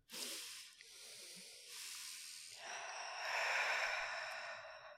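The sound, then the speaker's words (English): Several people take a slow, deep collective breath together, producing a soft, airy hiss that swells and lingers over several seconds. The sound stays faint and breathy, with no talking. “I think we should take a collective breath and let it go.”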